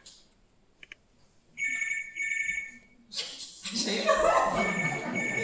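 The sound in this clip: A telephone ringing, heard as two short bursts of a bright electronic trill after a few faint clicks, then followed by a louder, busy wash of mixed noise.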